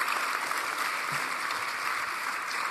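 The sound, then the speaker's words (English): Audience applause fills the short stretch: dense, steady clapping at an even, fairly loud level from start to finish, with no voices standing out. “You guys give a round of applause, yeah.”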